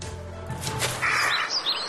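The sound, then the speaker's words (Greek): A lesser kestrel calls with a few quick, high, thin chirps over steady background noise, most of them in the second half. “Αυτό είναι σπάνιο Κυρκινέζι”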